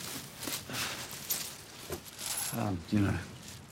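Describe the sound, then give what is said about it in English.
Coins handled from a bag, faint metallic clinks and light rustling, with a few brighter jingles clustered near the end. “He retrieves his bag of coins. Grabbing a few, he offers them to Amanda.”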